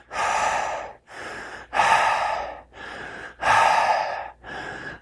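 Rhythmic, forceful breathing like pumping up a raft or blowing up a balloon, used to get in the zone: six strong, airy breaths in a steady beat, alternating louder and softer, with no talk.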